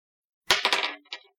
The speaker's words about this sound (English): Sorry, I was making a decision by a dice roll.